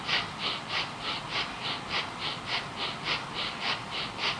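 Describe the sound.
Forceful rhythmic breathing during devotional chanting, with God's name pushed out on the breath while mouth and eyes stay closed: many sharp, evenly spaced breath bursts in a fast steady pulse, breathy and hissing, with no spoken words.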